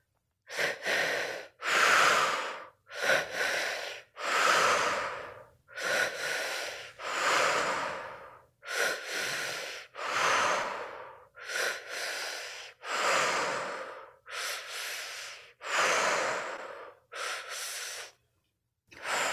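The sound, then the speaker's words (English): Deep breathwork breathing: slow, loud inhales and exhales alternate in a steady rhythm, many full breaths in and out through the mouth, each separated by brief silence, with no talk. “And now, when you're ready, let's start the breath together.”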